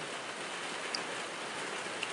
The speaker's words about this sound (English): the rain is coming down